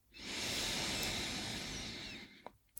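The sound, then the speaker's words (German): A slow exhale through the mouth during a guided breathing exercise: a soft, steady breathy hiss that lasts about two seconds and slowly fades, followed by near silence and a couple of tiny clicks. “ausatmen über den Mund”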